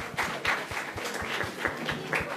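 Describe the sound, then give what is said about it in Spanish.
Audience applause on a quiz show after a correct answer, fairly quiet, with many regular claps falling in an even, rhythmic pulse rather than a dense roar. “Ok, esa respuesta es correcta. Un aplauso para el público.”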